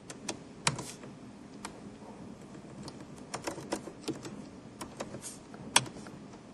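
Someone types on a computer keyboard while writing code for a CPU usage query, a scattered run of many light, irregular key clicks broken by brief pauses, with a few sharper taps standing out and no voices.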